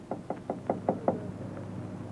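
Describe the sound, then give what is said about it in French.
Knocking on a door in a comedy sketch: six quick, evenly spaced knocks in a steady rhythm, then quiet. “Et il frappe à la porte d'un copain pour lui demander d'ouvrir.”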